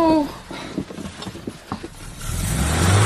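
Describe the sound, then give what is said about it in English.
A car engine being started in a garage, with rattling mechanical clicks and knocks that give way to a louder, continuous engine rumble toward the end. “Someone's trying to start our car. It's coming from the garage.”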